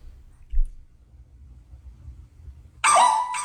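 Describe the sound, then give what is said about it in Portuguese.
A small dog barks into a microphone that gives an echo: after a stretch of low rumbling, a single loud, bright, drawn-out bark or yelp breaks in near the end. “O cachorrinho late, ele volta no microfone e late de novo.”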